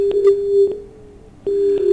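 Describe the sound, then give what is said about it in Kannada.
Disconnected phone-call tone: a steady mid-pitched electronic tone that drops out briefly, then resumes at the same pitch, heard alone without talk. “ಕರೆ ಕಡಿತ ಆಯ್ತು.”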